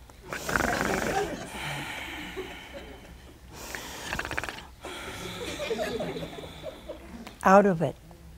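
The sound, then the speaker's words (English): A voice imitates snoring, as of someone sound asleep: several long, rasping, breathy snores in a slow rhythm, ending with a short, louder snorting burst. “So Adam fell sound asleep, and he was snoring.”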